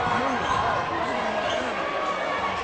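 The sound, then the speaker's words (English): A basketball is dribbled on the court in the corner during a Peters Township versus Uniontown game, giving a quick, repeated bouncing rhythm under a commentator's continuous talk. “Winfrey dribbling in the near corner.”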